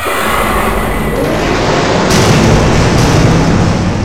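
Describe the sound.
Explosions of fighter craft destroyed in an audio-drama battle, heard as a loud, continuous rumbling roar with no distinct separate blasts, swelling slightly around the middle.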